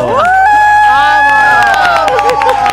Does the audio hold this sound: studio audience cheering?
yes

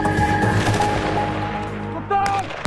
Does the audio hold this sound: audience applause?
no

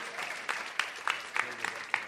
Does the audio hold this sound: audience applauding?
yes

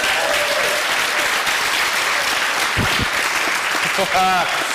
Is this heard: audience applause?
yes

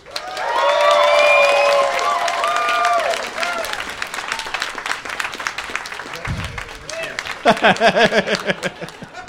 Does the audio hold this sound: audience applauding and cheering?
yes

